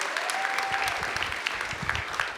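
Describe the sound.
Audience applause honoring a school leader: a dense, steady wash of many hands clapping at even loudness for the full stretch, with no talk over it.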